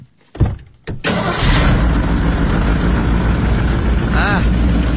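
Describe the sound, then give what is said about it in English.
A new Marmon car engine with a sprung crankshaft: two short, sharp cranking bursts, then the engine catches and settles into a loud, steady running drone. “it is very rare in a car so new. It comes sometimes with the Marmon, however. What is it? Yeah, good, good. Well, it's a crankshaft is sprung.”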